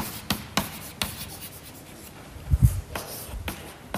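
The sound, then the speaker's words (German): Writing as the name Wilhelm von Ockham is written out: scratchy strokes with a few sharp taps and a soft knock, fairly faint and heard alone. “Ich schreibe mal auf Wilhelm von Ockham.”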